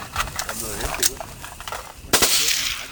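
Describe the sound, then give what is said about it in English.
Gunshots from illegal automatic weapons, AK-47s and M-16s, fired at pumpkins scattered as targets in a field. A few sharp cracks ring out, with a heavier blast near the end, while people talk underneath. “They shot illegal automatic weapons Brian provided, those AK-47s, M-16s. Using pumpkins they'd scattered about in a field as targets.”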